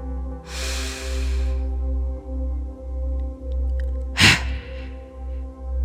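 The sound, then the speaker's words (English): Breaths during a morning meditation breathing exercise: a long, airy breath followed by one short, sharp exhalation, set over a soft, low, pulsing drone. “Breathing in, exhaling sharply. Twice more.”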